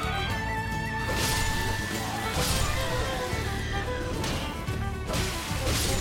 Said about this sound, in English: Shield crash! That's kind of neat.